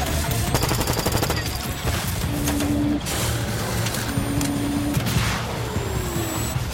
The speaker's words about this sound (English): The drones swoop in pursuit, rounds from their miniguns peppering the snow.